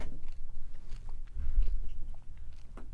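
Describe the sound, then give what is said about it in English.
Soft crunching and chewing of a single M&M chocolate candy, with a few faint, irregular bites and no talking. “I'm not going to eat any other M&Ms after this one. I'm just going to eat one, so that way everybody's happy.”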